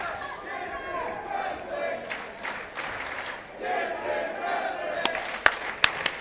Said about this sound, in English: This is wrestling chant from the crowd.